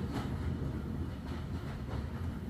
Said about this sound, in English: As quickly as you arrived, carriage reaches the end of the viaduct,